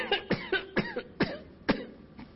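Coughing from a person: a series of about eight short, dry coughs in an uneven rhythm, fairly faint and alone, with no talk.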